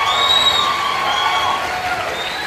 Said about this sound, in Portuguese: Cara, aplausos. Aplausos.